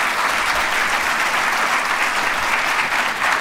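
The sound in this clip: Audience applause welcoming the chancellor onto a platform: dense, steady clapping from a large crowd, holding at an even level throughout.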